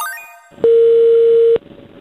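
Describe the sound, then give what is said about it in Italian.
A telephone line tone during a callback. A quick run of short rising beeps is followed by one steady, loud tone lasting about a second, which then cuts off. “Dopo una mezz'ora la richiamiamo per scoprire se è più predisposta a collaborare.”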